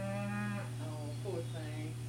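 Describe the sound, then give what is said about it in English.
A cow moos, calling for her calf penned in a lot. Her low, drawn-out calls sound over a steady low background hum. “That's the cow. She's hollering for this calf that's in the lot.”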